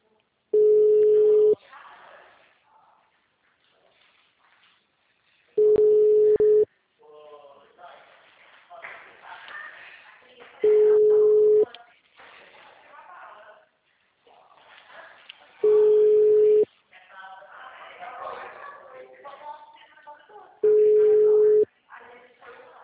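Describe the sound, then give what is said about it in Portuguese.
Ringback tone of a telephone call being dialed: five long, steady beeps at even intervals, with quieter voices murmuring between them. “vou fazer ligação”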